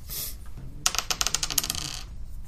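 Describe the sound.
Damage dice clatter across a table during a tabletop role-playing game: a quick run of many sharp, bright clicks and rattles lasting about a second, heard alone without talk.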